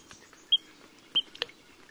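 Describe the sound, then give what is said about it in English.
Spotted sandpiper calls: two short, high, whistled notes about half a second apart, faint and clean against a quiet background. “This sandpiper's distinctive spotted chest and bobbing tail make it easy to recognize, unlike many shorebirds, which are notoriously hard to identify. Its multi-part wheat, wheat, wheat call will help you clinch the identification.”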